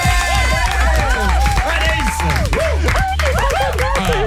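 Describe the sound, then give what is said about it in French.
Applause and cheering from a crowd during a radio call-in prize game, dense and steady throughout, with many overlapping shouting voices over the clapping. “Cinquième étape, on applaudit.”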